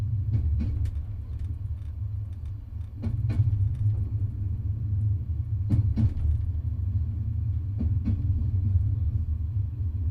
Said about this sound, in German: Raum 8. Ein Zug unterwegs. Endlich mal was Friedliches.